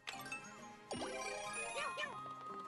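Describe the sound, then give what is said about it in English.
A bright, tinkling chime sounds as a red bell item is used in a Mario video game. It plays over steady electronic game music, with sliding tones dipping and rising. “I noticed I have a red bell in my items. What is that? Use it.”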